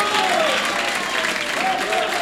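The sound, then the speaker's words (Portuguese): Church audience clapping their hands during a worship service, a dense, steady wash of applause that fills the whole clip, with a voice faintly underneath. “Pode bater palmas para o Senhor.”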